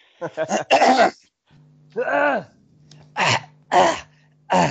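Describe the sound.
Throat clearing while bringing up phlegm: a quick cluster of rasping hacks, then a few separate harsh, gravelly bursts with short pauses between them, over a low steady hum.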